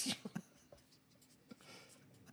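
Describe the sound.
Pen or pencil writing something down: a few faint, short scratchy strokes near the start, then quieter, sparse scratching.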